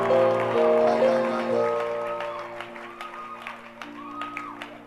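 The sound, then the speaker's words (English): A church audience claps for the Lord during a lively service. Scattered, fairly faint claps sound over sustained tonal sounds, and the overall level gradually drops. “Shout hallelujah! Hallelujah! Clap your hands for the Lord and give the Lord a shout.”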